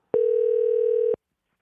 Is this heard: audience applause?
no